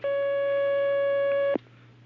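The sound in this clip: A telephone line tone plays as a caller is put through. A single steady electronic beep holds for about a second and a half, then cuts off with a click, leaving a faint low hum on the line.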